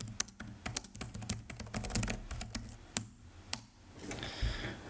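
Rapid, irregular clacking keystrokes come from typing on a steel computer keyboard, with a few noticeably harder, louder hits among the taps. The typing stops shortly before the end.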